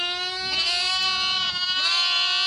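Lambs bleat in a continuous, wavering, nasal cry that fills the whole stretch at a steady, moderate loudness.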